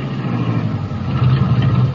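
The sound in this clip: A car driving on an old, wet road gives a low, steady engine rumble with a slightly uneven, bumpy texture, and no voices are heard.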